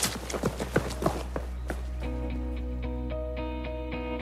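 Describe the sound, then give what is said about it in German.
Rapid running footsteps of someone fleeing in panic, quick irregular thuds for about two seconds, then fading into sustained tonal music. “Er kriegt Panik und rennt weg.”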